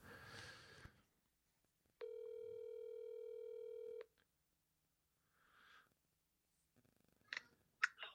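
A telephone line tone plays while someone is being called: one steady, buzzy tone lasting about two seconds, then near silence, followed by a few faint clicks.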